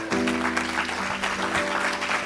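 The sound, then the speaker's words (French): Audience applause at a gathering, a dense, steady clatter of many hands clapping throughout, with a held tonal sound running faintly beneath it. “Isabelle, si tu veux bien te lever. Est-ce qu'on peut applaudir Isabelle?”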